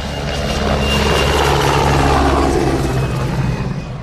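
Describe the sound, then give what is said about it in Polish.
Military aircraft, F-16 jets and attack helicopters, flying over a training ground: a loud, broad engine roar with a low rumble that swells toward the middle and then eases off slightly, with no voices. “Nad poligonem przeleciały F-16 i śmigłowce szturmowe.”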